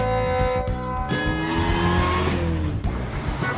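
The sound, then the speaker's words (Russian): An old blue Volkswagen speeds and swerves sharply between lanes. Its engine roars loudly and continuously, the tone shifting as tires squeal throughout. “Машина мчит, меняя резко полосы движения.”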